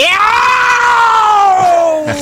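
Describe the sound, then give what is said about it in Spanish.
A person imitates a cat's meow in one loud, sustained call lasting about two seconds. The harmonic, whining pitch rises slightly, then slowly falls. “¡Es un gato! Se transformó en un gato.”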